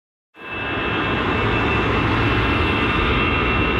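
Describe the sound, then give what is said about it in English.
Aircraft taking off at a busy Paris airport: a loud, steady jet roar that starts abruptly and holds without letting up, with a thin whining tone running through the dense rumble. “You'd be forgiven at Paris's biggest airport for not hearing anything over the sound of hundreds of flights taking off”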